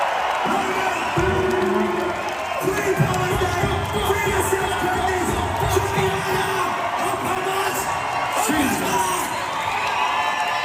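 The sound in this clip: A concert crowd in November 2024 cheers and shouts without pause, loud yelling voices and whoops rising over a dense, continuous roar that fills the whole stretch.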